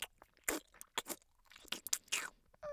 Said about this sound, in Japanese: 卵おいしい。くたくた音させるな。